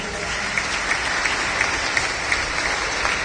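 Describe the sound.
Applause at a Pentecostal church service: a steady wash of many people clapping, with a few sharper claps standing out at fairly regular intervals.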